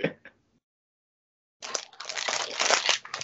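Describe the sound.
Crinkling of a wrapper as a package is unboxed: a couple of brief rustles, a short silence, then a sustained burst of crackly, crunching plastic.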